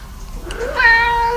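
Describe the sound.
A cat's meow, one long drawn-out call that rises in pitch and then holds steady, loud and clear with no other sound around it.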